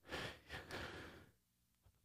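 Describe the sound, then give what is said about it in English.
A person takes a deep breath: soft, airy breathing in a couple of swells, then near silence. “Let me take a deep breath here.”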